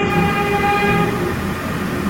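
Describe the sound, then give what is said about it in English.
A train rolls along the line directly above an office, producing a steady, loud rumble layered with sustained high whining tones that fade slightly toward the end. “You hear the train, right? Yeah. Don't miss the noise. Yeah, the office is right under this train.”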